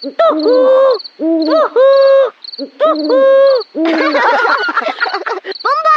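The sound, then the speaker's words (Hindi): An owl hoots at night, giving a few long, tonal hoots in a repeating rhythm over steady high cricket chirping, with a voice heard briefly. “ये तो उल्लू की आवाज है। ये आवाज तो बहुत मजेदार है।”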